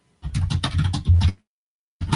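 Hard typing on a computer keyboard: a quick run of heavy, thudding keystrokes stops abruptly, then starts again briefly at the end.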